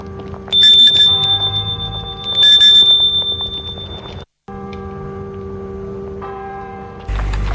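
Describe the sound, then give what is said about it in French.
A gate bell rings at the entrance to a large white three-storey house set in a park. It sounds twice in bright metallic bursts, each with a sustained ringing tone that slowly decays, followed by a steadier background tone. “Les deux enfants vont sonner au portail.”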